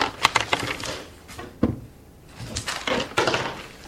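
Dice rolling during a tabletop role-playing game, heard as a few bursts of sharp, clattering taps with short quiet gaps between them.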